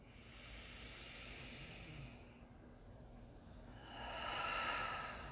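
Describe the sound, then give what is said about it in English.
Breath exhaled slowly through an open mouth during a relaxation exercise: a soft, steady breathy hiss that eases off, then a second, slightly louder exhale swells and fades. “open your mouth. Exhale, let your breath go. Do it again.”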